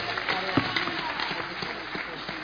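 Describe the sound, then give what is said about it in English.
A crowd claps at a religious gathering, a dense, steady patter of many hands with no clear break throughout. “Clap for Jesus.”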